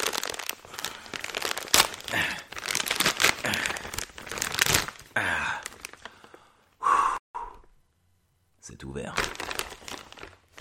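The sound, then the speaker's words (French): Crinkling and tearing as a hard-to-open package, a large tube holding a poster, is forced open. Bursts of rustling mix with breathy effort and talk, and there is a brief silent gap near the end. “je pense qu'il y a un poster dedans. Ah. Putain, c'est dur à ouvrir.”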